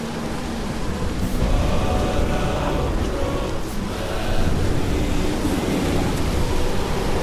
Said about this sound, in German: Was für Lieder? Das ist nur der Sturm.